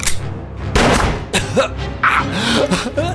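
Gunshots in a shootout over a drug deal gone wrong: a few sharp, loud bangs spaced irregularly, with vocal noises between and after them.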